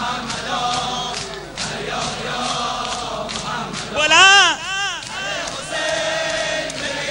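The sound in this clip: A crowd shouts religious mourning chants invoking Mohammad and Hussain, a loud rhythmic chorus of repeated phrases; partway through, a single sung voice rises clearly above the group for a moment before the massed chanting resumes.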